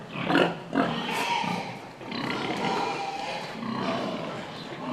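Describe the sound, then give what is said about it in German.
A sow and a boar grunt on a farm as the sow circles the boar before natural mating: loud, rough, continuous grunting and snorting with a few stronger bursts. “Die Sau, die hier um den Eber tänzelt, erwartet gleich ein seltenes Vergnügen.”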